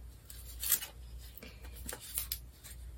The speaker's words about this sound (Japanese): 今日はこれ新しいのを今から開封するんですけども、人工というお香になります。